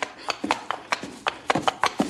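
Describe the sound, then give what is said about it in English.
A horse's hooves clip-clop in a quick, slightly uneven series of hollow knocks, many sharp taps in close succession with short gaps between. “Look out for that horse, boss! He's coming for you!”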